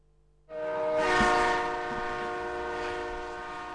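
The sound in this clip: A train runs on rails, a loud steady rumble with a sustained tonal whine that starts abruptly after half a second of near silence and holds to the end.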